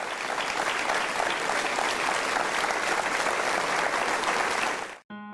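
Applause from a church audience during a Mass, steady dense clapping that holds at full strength for about five seconds before cutting off abruptly.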